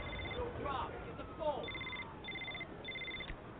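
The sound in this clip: A telephone rings with several short, repeated electronic trill bursts, fairly faint over a muffled, rumbling background.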